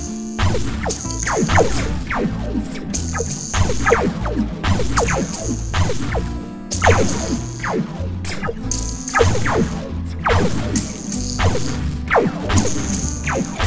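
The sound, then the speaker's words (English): Weapons fire in a sci-fi space battle as a long run of repeated laser-like zaps. Each shot sweeps downward in pitch and ends in a sharp whack, and the shots come in a steady, pulsing rhythm. “Firing has commenced. Shields down to 80%.”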